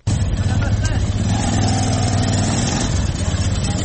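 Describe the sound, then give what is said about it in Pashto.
Engine of a Zaranj motorcycle converted into a passenger rickshaw in Kandahar, running loud and steady for nearly four seconds as a continuous mid-pitched drone with a rough, buzzing texture. “کندهار کې د ټیکسي موټرونو او نورو رکشو سره سره خلکو د زرنج موټرسایکلونو څخه رکشې جوړې کړي او سپرلۍ وړي راوړي.”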